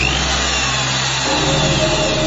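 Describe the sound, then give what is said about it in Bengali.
An electric drill machine whirs loudly and continuously, a harsh, steady mechanical drone with a buzzing low hum beneath it that holds without pause throughout. “Drill মেশিনটা on করতেই তীব্র বন বন আওয়াজে কানে তালা লেগে গেল।”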